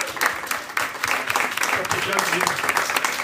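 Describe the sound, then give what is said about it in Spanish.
An audience at a comic convention panel applauds, with sharp individual claps standing out from a dense, lively patter for about three seconds. “Entonces, por favor, un aplauso para José Luis y Carmix, en serio, que se lo merecen.”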